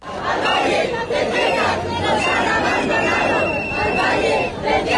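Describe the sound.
Protest crowd in central Madrid over the Ávila wildfire and neglect of the Tiétar Valley: loud massed voices shouting and chanting in swelling waves, dense and continuous.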